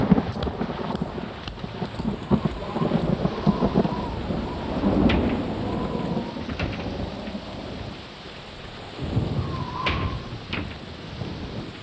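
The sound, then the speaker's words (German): Steady rain with rolling thunder on a quiet rainy holiday in Siena. Low rumbles swell over the constant patter, with louder peaks near the middle and toward the end. “Und dann noch bei Regen.”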